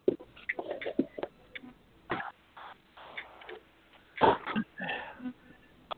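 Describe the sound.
Heavy breathing too close to a telephone, heard through a thin, band-limited phone line: irregular puffs, rasps and sniffs separated by short gaps, fairly faint overall.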